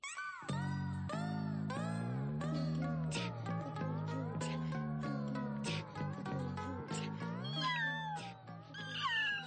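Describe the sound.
A kitten meows in many short, high mews that waver and bend in pitch, quiet overall and with no speech.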